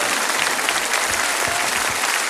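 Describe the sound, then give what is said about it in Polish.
Audience applause for a young group in tasteful, elegant costumes on stage: dense, steady clapping that holds at an even, loud level for the whole stretch without breaks. “Dodatkowe brawa za gustowne i estetyczne kostiumy.”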